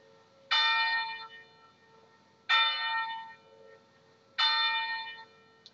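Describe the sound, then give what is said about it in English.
A historic church bell rings three times at an even, unhurried pace. Each strike is loud and bright, with a rich ringing tone that fades slowly before the next. “You can ring the bell yourself whenever you'd like”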